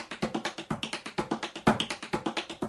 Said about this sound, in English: So another roll I'll demonstrate for you, our four-count roll that we call paddle and roll.